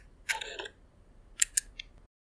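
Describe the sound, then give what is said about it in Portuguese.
A Fuji X100S mirrorless camera focuses and fires its shutter. First comes a faint, short chattering whir, then a few tiny crisp ticks. Every sound is very quiet and delicate, with hushed stillness between them. “Agora, esse é o som de uma Fuji X100S fazendo foco e disparando.”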